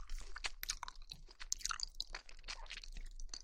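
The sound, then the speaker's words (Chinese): Chewing of soft mango slices: many irregular, moist crunching and squelching bites follow each other densely without a pause, fairly quiet and with no talking. “这个是芒果片，对不对呀？太熟悉的味道了”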